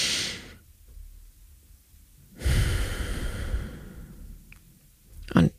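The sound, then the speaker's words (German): Slow, paced breathing during a breathing exercise: a brief breath, a long quiet gap, then a longer, louder airy breath, followed by silence and a small click at the end. “ich sage, ich atme einfach 5 Sekunden ein und 3 Sekunden aus. Wobei Sekunden können auch einfach Schläge, also deine eigene Zeiteinheit sein. Können wir ja mal zusammen machen.”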